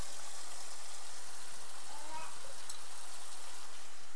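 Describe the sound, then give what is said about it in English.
Milk heats in a pan with a steady, even sizzling hiss that holds at one level from start to finish, with no voices. “Let's get your milk heated up first.”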